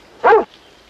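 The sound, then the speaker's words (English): A single short bark from a yellow, lop-eared dog on a farm: one loud, abrupt yelp, heard alone against quiet. “The yellow dog trots back to the house.”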